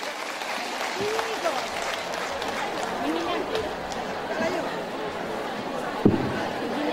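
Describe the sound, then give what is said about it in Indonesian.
Audience applause welcoming an Islamic preacher to the stage, a continuous crowd clapping with chatter and voices mixed in and a sharp knock near the end. “Kita berikan aplaus yang meriah untuk Pak Ustadz Wijayanto.”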